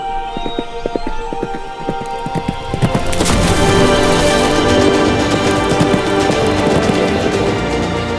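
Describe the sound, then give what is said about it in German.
Hoofbeats of a white horse ridden through a fairy-tale forest: a steady clip-clop rhythm, joined after a few seconds by a louder, denser layer of sound that continues to the end. “Im Königreich Floravia reitet Prinzessin Emilia auf ihrem Schimmel durch eine märchenhafte Waldlandschaft”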